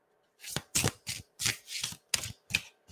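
A brand-new, slippery deck of playing cards is shuffled in a quick run of about eight crisp riffling bursts, each a short papery flutter separated by brief pauses, with no talk.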